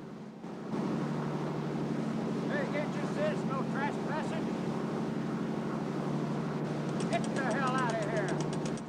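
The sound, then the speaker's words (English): Boat engine drones as the craft approaches Alcatraz island at night in a tense raid. The low, steady rumble holds at an even level throughout, with some higher warbling tones layered over it. “As the boat approaches Alcatraz, Harry and Moore take cover.”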